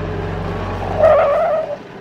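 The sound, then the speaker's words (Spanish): A car engine hums low and steady, then a brief higher whine swells for under a second before easing off into quieter rumble. “Mi amigo llevaba su coche y arrancamos a las 5 de la tarde.”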